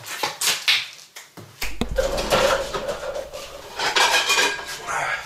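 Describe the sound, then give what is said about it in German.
Metal cookware clatters as a lid is set onto a cooking pot, with several sharp clanks and a ringing scrape, then lighter rattling and knocks that continue fairly loud to the end. “wir brauchen noch einen Deckel.”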